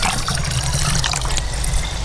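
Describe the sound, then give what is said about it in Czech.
Water splashing and trickling as a sampling pole draws a column of water for testing, worked from a metal structure out from the shore: a loud, continuous, bubbling wash of liquid with no talk. “Bere se vzorkovací tyčí, protože se potřebuje odebrat vlastně sloupec vodní.”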